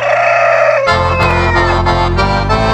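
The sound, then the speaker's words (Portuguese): Roosters crow in the countryside, with a few high, drawn-out calls rising over a loud, sustained low drone. “E olha os galos cantando no meu rincão, tchê.”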